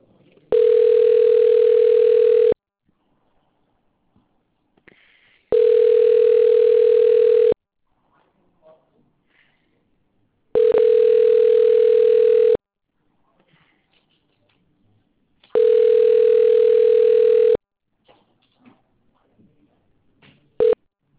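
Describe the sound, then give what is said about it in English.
A telephone call connects and rings through on the line. Four steady, mid-pitched ringback tones each last about two seconds, separated by silent gaps of roughly three seconds. “Connecting call.”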